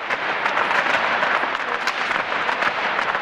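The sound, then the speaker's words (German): A group of tap dancers rehearses in a cathedral, their shoes making a dense, continuous clatter of many rapid, overlapping taps at a steady loud level throughout. “Kurz nachher wird es aber wieder laut in der Kathedrale. Eine Gruppe Stepptänzerinnen ist am Proben.”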